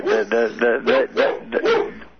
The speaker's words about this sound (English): What is that, a laugh or a barking dog? That's my dog.